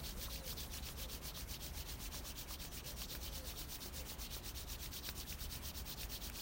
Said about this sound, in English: Exhale, rubbing the hands.